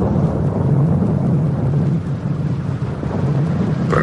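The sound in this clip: Deep rolling thunder rumbles through steady rain in a continuous, heavy wash of low noise with no clear breaks or voices.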